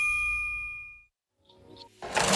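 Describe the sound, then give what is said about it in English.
Single bright ding of a cash register at a supermarket checkout, ringing clearly and fading out within about a second. A brief silence follows, then a rising burst of rough, rushing noise. “That's the sound of the register at Winn-Dixie, Monet Holder's first job”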